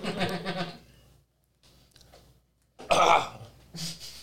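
A person clears the throat and coughs with something stuck in it: a few harsh bursts separated by quiet gaps, with the strongest burst near the end.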